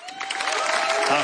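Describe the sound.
Audience applause for a debut songwriter at a music festival, a rising wash of clapping and some crowd noise with a voice speaking over it.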